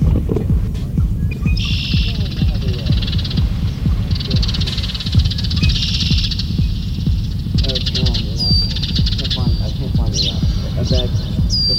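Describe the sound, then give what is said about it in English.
A male red-winged blackbird's song and call notes, including harsh chips, as sung from a post in a marsh. Bright trills and short high notes come and go over a heavy, throbbing low beat. “the song of the male red-winged blackbird is an instantly recognizable ocalee, sung from a conspicuous post in the marsh. The blackbird also has a number of call notes, including a harsh chip.”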